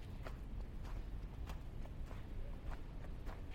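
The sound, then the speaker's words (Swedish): Footsteps walking along a city street: many soft, regular steps tapping at an even pace, faint under a steady low background rumble. “Nu går jag på Riddargatan.”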